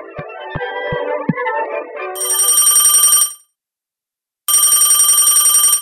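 Telephone ringing late at night, a bright, rapidly trilling electronic ring in two loud bursts separated by a silent pause, following a short passage of music.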